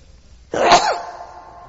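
A single sharp sneeze bursts out during a religious lecture after near silence, then trails off into a faint, fading tail.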